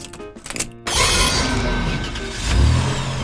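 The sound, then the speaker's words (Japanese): A car engine starts when the key is turned in a fantasy car in an anime driving lesson. A few short clicks and clatters come first, then the engine catches into a loud, steady roar that swells near the end. “この車は運転手の魔力で動く悪魔式の自動車です。キーを回すとともにグレモリーさんの魔力がエンジンに送られ動き出しますよ。”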